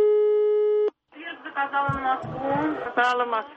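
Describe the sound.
A steady telephone line tone sounds after a number is dialed to an electric train depot to ask for the Baku–Ganja train schedule. One unbroken tone lasts just under a second and cuts off, then voices talk.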